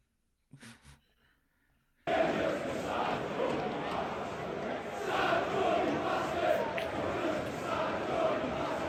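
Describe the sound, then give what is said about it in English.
Crowd chanting at a Korean baseball game: a dense, loud roar of many voices bursts in after a brief voice and continues steadily with swelling surges. “No, I don't want to listen to you. I want to listen to this chant.”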